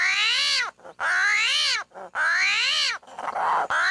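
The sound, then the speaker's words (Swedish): An armadillo screams as it is picked up and turned over: three long, loud, harmonic wailing cries that rise and fall in pitch like an angry cat, then a rougher, noisier burst and the start of another cry. “men hur låter då en armadillo eller ett bältdjur då? Jo, de låter så här.”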